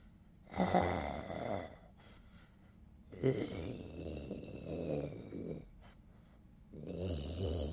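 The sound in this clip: A voice imitates a mouth-breathing snore, making three long, rasping drawn breaths separated by short pauses, all fairly quiet.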